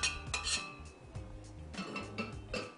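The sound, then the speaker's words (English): Metal utensil clinking and scraping against a pan while an agar-agar mixture is emptied out, giving a run of bright clanks and scrapes at an irregular rhythm, with no talk. “Get all that goodness out of the pan.”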